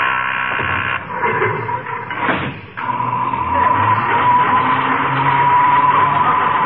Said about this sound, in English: The elevator makes so much noise you can't hear it.